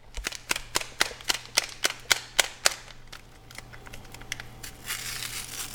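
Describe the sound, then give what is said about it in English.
A foil packet of sazon seasoning is torn open while cooking: a rapid, even series of sharp crinkling snaps, then softer, continuous rustling of the foil. “Then she adds a packet of sazon, an ingredient she also can't get in Sitka.”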